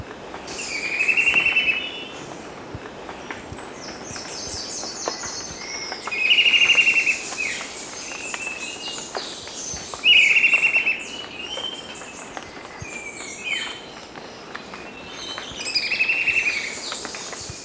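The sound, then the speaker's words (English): Russet-crowned warbler and other birds sing in a steady mix of high chirps and trills, with about four louder, brighter song phrases standing out above the continuous twittering. “Two, with russet crowned warbler and others.”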